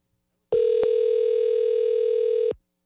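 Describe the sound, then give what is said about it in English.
Telephone call ringing out, heard as a single steady, loud tone held for about two seconds, with a brief click near its start. “I feel bad calling when he's sick, but we need him. Yeah. Come on. We will call him twice and then we'll give up.”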